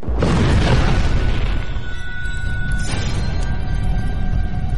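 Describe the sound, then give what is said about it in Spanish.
An anti-tank weapon fires a grenade with a single loud blast at the start, a broad rumbling boom that gradually fades and leaves a faint, thin high ringing tone. “Se colocaba el arma en posición de disparo. Se introducía la granada. Se levantaba la mira. Panzer a 50, 80 o 110 metros. Apuntaba así, ¡fuego!”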